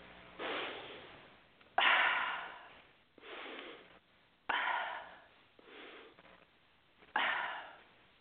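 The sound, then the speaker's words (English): Deep breathing during a calming exercise for anxiety: six loud, airy breaths in an even, unhurried rhythm, each separated by a short quiet pause. “Take a nice deep breath.”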